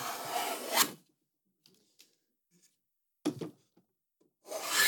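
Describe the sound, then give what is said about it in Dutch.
A spokeshave planing a wooden block on a furniture maker's table produces three raspy, breathy shaving strokes. The first is long, the second short and the last starts at the very end, separated by near silence and faint handling noises. “En die gaat dus laten horen hoe die krulschaaf, ja, krulschaaf klinkt over dat houtblok.”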